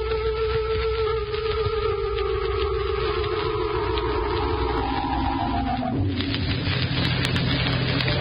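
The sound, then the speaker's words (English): A car engine drones steadily while driving in thick fog. The low, even hum slowly sinks in pitch, then shifts abruptly to a lower, rougher tone near the end. “Come on. I'm driving you to the mainland.”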